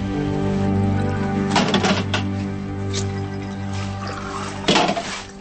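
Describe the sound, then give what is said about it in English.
Cups are emptied into a bathroom sink: two short bursts of splashing, pouring liquid stand out over a steady, humming background. “In the bathroom, he empties cups into the sink, turns, and sees a woman passed out over the toilet.”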